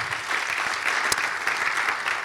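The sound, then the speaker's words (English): Audience applause welcomes a speaker onto the stage at a Christian festival session, a continuous moderate patter of many hands with a few sharper single claps standing out. “give John a round of applause”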